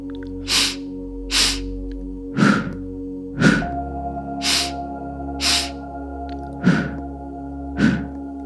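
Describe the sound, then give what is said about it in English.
Two-part pulse breathing: eight sharp, airy breaths in four evenly spaced pairs, alternating double inhales through the nose and double exhales through the mouth, over soft, sustained musical tones. “It will be a two-part pulse breath. So we're going to inhale twice through the nose and exhale twice out the mouth.”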